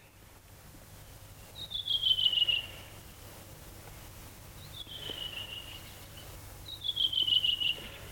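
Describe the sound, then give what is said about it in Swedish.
A redwing sings energetically: three short, high, twittering phrases, each dipping slightly in pitch, separated by pauses over a faint low background hum. “så sitter den där en rödvingetrast och sjunger energiskt, frenetiskt. Sjunger och sjunger och sjunger.”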